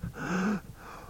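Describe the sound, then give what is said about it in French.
A beggar takes a sharp inhalation and holds his breath: one quick, breathy gasp with a faint voiced edge, then near quiet. “Celui-ci prend une inspiration, retient son souffle,”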